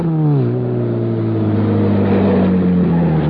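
A car speeds into a corner with a loud, sustained engine drone. The pitch dips sharply near the start, then sinks slowly as the car holds its speed, with no voices over it.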